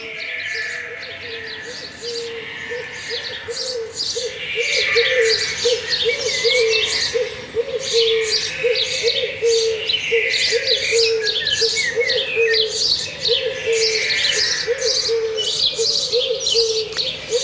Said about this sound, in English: So you took a British Dawn Chorus and you transformed it to make it sound more tropical.